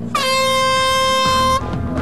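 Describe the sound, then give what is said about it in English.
A klaxon sounds to start a bungee race, giving one loud, steady, brassy blast with rich harmonics that holds for about a second and a half before cutting off abruptly. “Go on the sound of the klaxon.”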